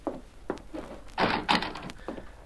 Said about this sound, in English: Looks to me as if the door is partly open.